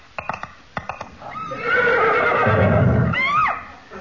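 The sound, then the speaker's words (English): A horse gives a loud, drawn-out whinny as a riding-accident sound effect, opening with a few short sharp knocks, then a wavering cry that ends in a falling squeal. “Which means that Samantha's just had another freak riding accident.”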